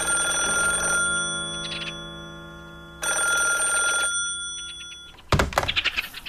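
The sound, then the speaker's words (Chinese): A telephone ringing in a family home around nine o'clock: two long, bright electric ring bursts separated by a pause, then a brief thump. “这时电话铃响”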